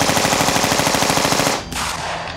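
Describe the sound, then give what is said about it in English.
Rapid automatic fire from a gold-plated machine gun during a gunfight with police: a loud, unbroken rattle of many shots that briefly dips before resuming. “a gunfight broke out with shotguns, pistols, and that gold-plated machine gun.”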